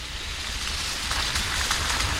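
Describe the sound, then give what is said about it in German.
Steady rain falls outdoors during a walk through a valley, a continuous even hiss that holds at a constant level throughout with no voices. “Es regnet, wie schon an den vergangenen Tagen.”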